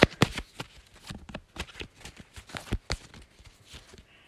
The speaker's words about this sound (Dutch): Nou ben ik de kaarten aan het schudden.